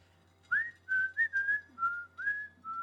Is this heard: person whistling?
yes

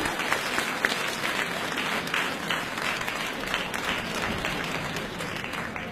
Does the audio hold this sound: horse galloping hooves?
no

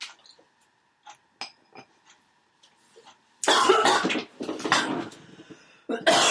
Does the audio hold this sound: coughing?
yes

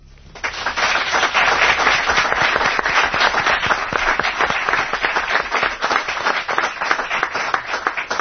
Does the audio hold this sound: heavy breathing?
no

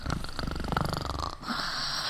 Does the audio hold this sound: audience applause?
no

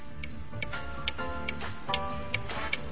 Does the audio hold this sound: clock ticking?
yes

